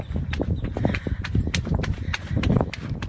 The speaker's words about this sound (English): You can tell that she's running in, by the way, in flip flops.